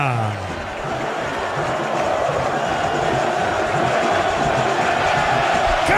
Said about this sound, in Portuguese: Sobe som da Vila Belmiro, é festa do torcedor santista.